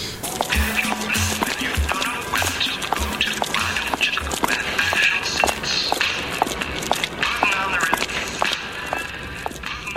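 Stiletto heels strut around a studio in a long run of sharp heel clicks and taps, a quick, fairly steady rhythm of many footsteps.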